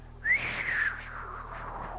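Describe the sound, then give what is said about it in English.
A man attempts a whistle: one faint, breathy, wavering note that rises briefly, then slides slowly downward and thins out over nearly two seconds. “Can't whistle, but I'm trying.”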